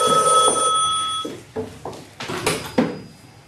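A telephone rings at an inn with a steady, bright electronic ringing tone for a little over a second. The ringing then stops, and a few short bursts of other noise follow.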